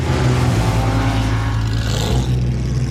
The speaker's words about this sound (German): Man fährt geradeaus, Fullspeed. Kommt noch eine Bremsschikane.